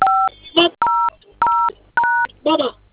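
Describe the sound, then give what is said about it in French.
Four telephone keypad tones dial a star code followed by 5, 1, 0. Each steady beep is loud and evenly spaced, and a voice speaks briefly between some of the tones. “que la tonalité est activée, vous prenez le code étoile 510. Étoile 510.”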